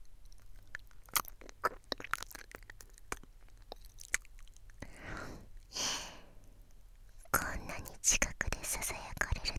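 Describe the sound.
Close-up ASMR mouth sounds: soft, wet lip licking with scattered tiny clicks and smacks. A breathy, whisper-like hiss swells briefly in the middle, and the sounds stay quiet and intimate throughout.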